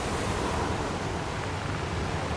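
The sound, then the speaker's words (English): Ocean waves wash steadily behind a film scene as a continuous, even roar of surf with no distinct breaking crests. “You can hear the ocean in the background after teaching him how to swim here.”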